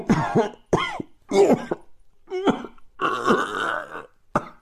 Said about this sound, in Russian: Кашель перешел в хрип, сиплое удушение.